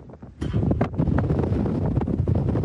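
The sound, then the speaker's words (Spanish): A strong gust of wind in the open desert at El Paso buffets the microphone, rising suddenly into a loud, continuous roaring rush that holds steady after a quieter start. “Perdón por el sonido de esta inmensa ráfaga de viento que hemos estado en este momento. Estamos en pleno desierto aquí en El Paso.”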